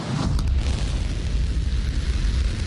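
A new-version SpaceX rocket lifting off on a suborbital flight carrying Starlink satellites, right after a countdown: a continuous, loud, deep rumbling roar with a crackling edge, holding steady throughout with no voices.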